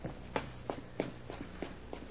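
Footsteps of someone running upstairs to fetch a handyman: six quick, evenly spaced thuds with a steady rhythm over a low, constant hum.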